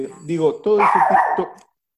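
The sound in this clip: A dog barks in a few quick, high, yipping bursts, fairly loud and alone, before the sound stops abruptly.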